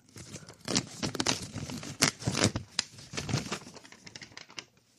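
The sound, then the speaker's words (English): A paper check is torn along its perforated lines in a string of short, crisp ripping bursts with brief pauses between them. The tearing is fairly quiet and fades out over about five seconds. “$5 trillion check. Got to make sure I rip the lines properly.”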